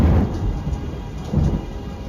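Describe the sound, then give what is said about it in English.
Deep rumbling thunder peal during a night storm, swelling loudly at the start and again near the end, with a steady rain-like hiss beneath and no voices. “A bolt of white lightning, a great peal of thunder.”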